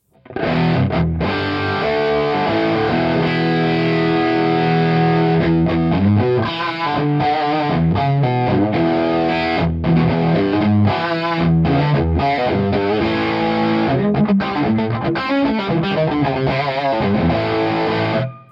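Distorted electric guitar through a delay effect with the tightness turned all the way down and the effect level all the way up, chords and notes ringing continuously as repeats trail behind them.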